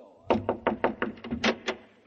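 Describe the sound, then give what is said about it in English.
Knuckles rap on a door in a quick, uneven run of about ten sharp knocks, moderately loud, with no voices. “I knocked.”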